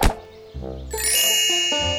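A cartoon bonk effect for a nut dropping from a tree onto a chipmunk's head: a sharp knock, then a dull thud, followed by bright ringing ding tones stepping in pitch.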